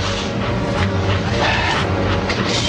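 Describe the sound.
A steam train starts to move, heard as a loud, continuous rumbling roar. Low droning tones sit under a broad hiss, and the sound stays steady with no distinct chuffs standing out.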